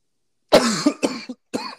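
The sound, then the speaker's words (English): A man coughs to clear something caught in his throat, blamed on allergies. A few harsh, throaty coughs come in quick succession, loud and alone. “I got something in my throat, man. It's these allergies here, bro. Hey, cough away, bro. Cough away from the mic,”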